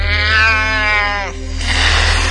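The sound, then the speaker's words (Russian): A cat lets out a piercing yowl: one long, strained cry with rich harmonics that bends downward in pitch, then breaks into a harsh, hissing noise. “А на акустическом уровне отважный кот разразился таким пронзительным мявом, что щитожабы на пару секунд замерли на месте.”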